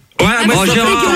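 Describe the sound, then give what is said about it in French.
A man's loud, voiced burp, about a second long, starting abruptly and holding a rough, wavering low tone, with no talk over it. “ton homme, il vient de roter aussi à l'instant.”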